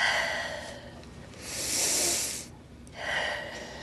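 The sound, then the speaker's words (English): A patient draws deep breaths during a doctor's lung exam, heard as airy hissing breaths: a faint one first, then a loud, sustained breath, then a shorter one near the end. “Next deep breath.”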